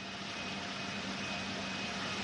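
A cargo airplane being loaded with vaccine deliveries gives off a steady, fairly faint engine drone with a low hum running underneath, unbroken from start to finish.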